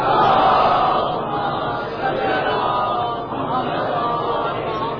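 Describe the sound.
A large crowd loudly chanting salawat together at a Shia majlis, a dense, sustained roar of many voices that stays strong and continuous throughout.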